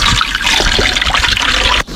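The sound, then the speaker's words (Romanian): Water poured into a 2-litre hand spray pump holding two crushed aspirin tablets. A loud, continuous splashing rush that breaks off abruptly just before the end, then resumes. “Și voi pune apă. Deci 1 litru de apă la o pastilă de aspirină.”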